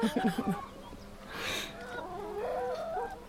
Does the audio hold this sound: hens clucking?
yes